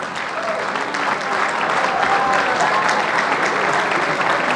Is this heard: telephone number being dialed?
no